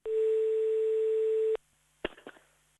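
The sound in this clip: A steady, loud telephone dial tone holds for about a second and a half while a call is being placed, then cuts off abruptly, followed by a few sharp clicks and faint clatter on the line.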